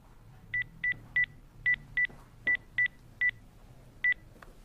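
A telephone number is dialed with nine quiet touch-tone beeps. They come in short, uneven groups, with a longer gap before the last one.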